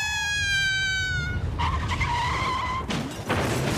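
A car with failed brakes skids in a radio drama effect: high tyre screeches whine in two long squeals, then abrupt, noisy bursts follow near the end.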